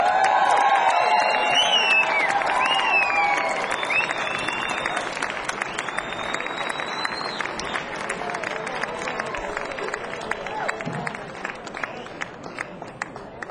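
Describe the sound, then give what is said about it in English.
An audience applauds to welcome Ralph Stanley and the Clinch Mountain Boys, with dense, sustained clapping, scattered shouts and whistles, and a long, gradual taper toward the end. “Please give a warm welcome to Ralph Stanley and the Clinch Mountain Boys.”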